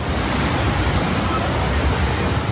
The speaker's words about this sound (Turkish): Burası Ayazağa yolu. Normal şartlarda araçların geçtiği bir yol. Ancak şiddetli yağışın etkisiyle adeta göle dönmüş durumda.